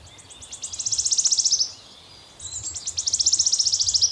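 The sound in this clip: An archive recording of a male leaf warbler singing: two high, accelerating trills, each a run of quick ticking notes that speeds into a shivering buzz, separated by a short pause.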